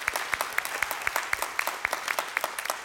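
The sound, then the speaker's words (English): Church audience applauding during an in-person worship service to welcome online viewers: a steady wash of clapping with sharper claps recurring at a regular, beat-like pace, moderately loud and with no talk over it. “would you put your hands together and welcome in our online family?”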